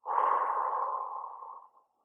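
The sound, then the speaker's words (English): A deep breath let out in one long, airy exhale. It starts at full strength, then slowly thins and fades away after about a second and a half, with no talk. “Let's take a deep breath right now. Come on. Breathe in,”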